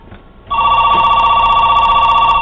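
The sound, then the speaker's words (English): A telephone bell starts ringing after a brief moment of low background noise, then keeps up a loud, steady, rapidly trilling ring to the end. “Let me disconnect this phone,”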